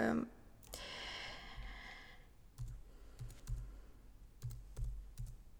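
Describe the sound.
Someone types text on a computer keyboard, producing faint, scattered clicks and short runs of keystrokes that grow more frequent in the second half.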